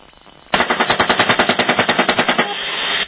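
Machine gun fire aimed at a van in a war zone: a loud, continuous burst of rapid, rhythmic shots lasting about two and a half seconds, preceded by a brief quieter stretch of fire.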